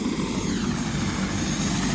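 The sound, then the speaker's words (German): A helicopter circles over the rock formations of Saxon Switzerland while hauling out storm-felled timber where forestry machines cannot reach. Its rotor and engine make a loud, steady, throbbing roar that holds for the whole stretch. “Der Hubschrauber kreist über der Sächsischen Schweiz und verschwindet immer wieder zwischen den Felsen. Er soll dort Sturmholz herausholen, wo normale Forstmaschinen nicht hinkommen.”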